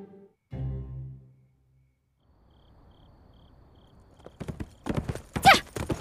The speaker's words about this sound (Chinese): 他骑着一匹桃花马